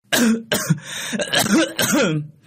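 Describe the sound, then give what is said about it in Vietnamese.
A person coughs and clears their throat inside a shabby house, a few harsh, voiced hacks in an uneven rhythm, fairly loud and close together. “Bên trong căn nhà lụp sụp, có tiếng người ho khụ khụ lên rồi đáp.”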